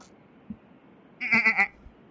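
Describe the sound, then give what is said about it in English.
A mountain goat bleat used as a transformation sound effect: one short, wavering, nasal cry that rises out of near silence and quickly fades, preceded by a faint soft thump. “Going to circle around my arms and my entire body, and everything that I am is going to shift into a mountain goat.”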